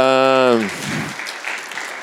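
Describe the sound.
Applause breaks out right after a short burst of voice, a dense, even patter of clapping hands that holds steady for over a second without fading.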